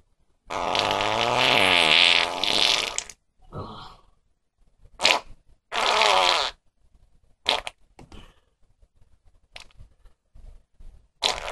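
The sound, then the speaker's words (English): Flatulence: one long, loud, rippling fart lasting a couple of seconds, followed by several shorter, sputtering bursts of varying length separated by quiet gaps. “listen to that fart”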